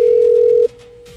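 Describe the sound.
A telephone ringback tone plays while a call is dialed out: one loud, steady, mid-pitched tone lasting just over half a second, then cutting off to a faint lingering hum.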